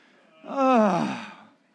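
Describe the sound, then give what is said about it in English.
A man's drawn-out groan, a single voiced moan of about a second that slides downward in pitch and fades away, with no other sound around it. “That's groaning.”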